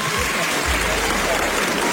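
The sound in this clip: Applause from a crowd: dense, continuous clapping that stays loud and even from start to finish, with no clear break.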